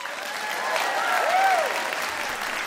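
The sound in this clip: Audience applause welcoming a folk singer back on stage at a live music show. Dense crowd clapping swells a little midway and then holds steady.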